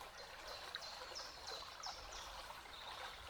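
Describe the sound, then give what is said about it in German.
Gently splashing, flowing water of a stream makes a soft, steady babble, with faint high chirps repeating above it. “Und je mehr du eintauchst in dieses Plätschern, in das Fließen des Wassers,”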